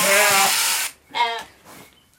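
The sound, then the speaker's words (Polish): An already-sheared sheep bleats twice, first a long, wavering, nasal call and then a shorter, similar cry after a brief gap, before the sound trails off into quiet. “Ta owca trochę spokojniejsza, trochę wełnę ma inną i już ostrzyżona.”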